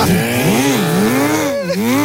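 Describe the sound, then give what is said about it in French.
A quad bike engine revs loudly with a buzzing drone. Its pitch swings up and down in repeated waves and then rises higher before dropping back. “Et après, on va retrouver Gérard Larcher en quad.”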